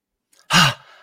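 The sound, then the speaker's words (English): A voice imitates irregular, ragged breathing while running: one loud, sharp, breathy exhale like a gasping "ha," with a faint breath before it and the start of another abrupt breath at the very end. “if I was breathing like this when running, I went, ha,”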